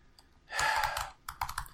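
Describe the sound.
Typing on a computer keyboard: a quick run of soft, clicking keystrokes in two bursts, with a brief pause between them.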